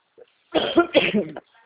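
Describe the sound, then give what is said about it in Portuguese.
A person coughs after choking: a tiny catch, then a short, harsh burst of a few rough coughs that quickly fades to quiet. “Desculpa, engasguei.”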